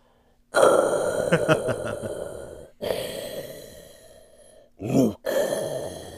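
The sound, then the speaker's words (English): A voice imitates the mechanical respirator breathing of a masked villain. A few long, rasping, hissing breaths alternate in and out, with a short sharp gasp near the end. The breaths are fairly loud and carry no talk. “I've always done a really good Darth Vader breath.”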